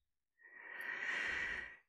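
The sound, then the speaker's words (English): A slow, deep breath in during a guided relaxation: a soft, airy hiss that swells steadily for about a second and a half. It is faint and heard alone, with no talk over it. “So take a nice deep breath in,”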